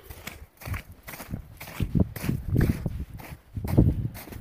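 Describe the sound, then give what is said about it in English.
Footsteps crunching as someone walks out to a coop over partly melted snow, with many steady steps falling in an even rhythm. “Now I'm just walking out to the coop.”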